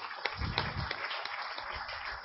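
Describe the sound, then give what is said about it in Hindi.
An audience gives faint, steady applause to welcome a guest speaker to a gathering. The crowd's clapping is soft and continuous throughout. “तो हम स्वागत करते हैं सभी करतल ध्वनि से, भाई जी का स्वागत करेंगे.”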